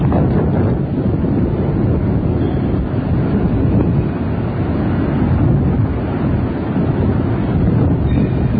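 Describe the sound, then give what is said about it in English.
Strong wind blows across an outdoor microphone in a loud, constant, rumbling roar that buffets steadily without pause for the whole stretch. “Awful lot of wind up there. Oh, well. Well, maybe the sound's not carrying too well tonight.”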